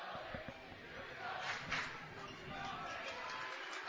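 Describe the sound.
A basketball is dribbled between a player's legs in a game. A few dull bounces are heard early on beneath steady crowd noise and a commentator's voice.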